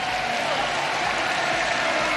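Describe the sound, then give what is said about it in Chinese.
Applause from a crowd at a sports competition, where an athlete claps for his opponent, forms a dense, even wash of clapping that holds steady throughout without pause. “马库奇克也在给自己的对手鼓掌致意”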